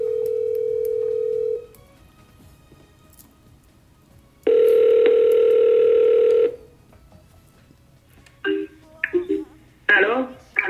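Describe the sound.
A telephone call ringing out to a friend: a steady tone first, then one long ring of about two seconds, followed by brief bursts of a voice at the end.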